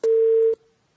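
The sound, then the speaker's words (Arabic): A phone line tone after a dropped call: a single steady mid-pitched beep of about half a second, clean and alone, then a faint trailing residue. “عبد الرحمن انقطع الاتصال”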